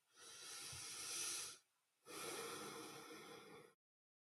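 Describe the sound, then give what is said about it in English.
A deep breath during a tapping relaxation session: a long, hissing inhale of about one and a half seconds, a brief pause, then an equally long breathy exhale. Quiet, with no talk. “Deep breath.”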